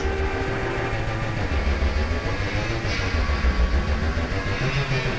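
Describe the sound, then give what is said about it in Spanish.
Trucks make a heavy, continuous rumble: a loud low drone with a steady tonal hum running underneath, unbroken across the whole stretch. “Camiones.”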